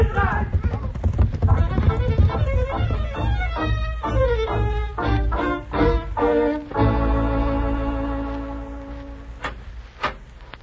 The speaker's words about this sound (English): Ride, Jose, ride. Andale, go on.